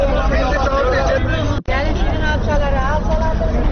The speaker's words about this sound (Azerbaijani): İndi ətraf kəndlərə müştəri çağıran sürücülərin, limon, paltar, başmaq satanların səsi ətrafı başına götürüb.